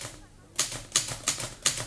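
Typewriter typing, four crisp mechanical keystrokes in an even rhythm after a quiet opening moment.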